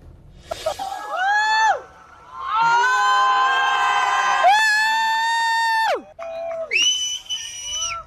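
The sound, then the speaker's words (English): Crowd in Spain cheering during totality of a total solar eclipse, with loud bursts of high whoops, shrieks and whistles, swelling into a long sustained roar in the middle and breaking into shorter bursts near the end. “That was the sound of people cheering in Spain as totality was happening above them.”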